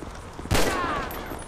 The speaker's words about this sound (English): Good thing I have a combat pistol.